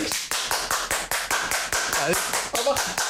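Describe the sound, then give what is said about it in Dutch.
Rhythmic clapping, sharp evenly spaced claps at a steady brisk tempo across the whole stretch, with a voice briefly speaking over it. “Ik heb ook applaus.”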